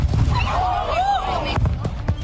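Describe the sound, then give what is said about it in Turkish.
Fireworks at a beach festival go out of control after a pyrotechnic malfunction. Whistling rockets rise and fall in pitch among sharp cracks and bangs, over a steady low rumble. “Pirotehnik arıza nedeniyle havai fişek kontrolden çıktı. İşte böyle patladı.”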